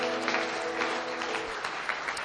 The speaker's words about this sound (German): Jetzt nochmal einen fetten Applaus.